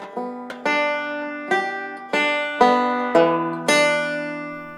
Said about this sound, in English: haven't touched the banjo in over a year. So I would like to find a class here in Pittsburgh and start lessons back up because what you're hearing right now is me attempting to play